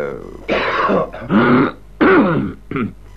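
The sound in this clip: A person clears their throat several times, four rough, guttural rasps with brief pauses between them, the last one short.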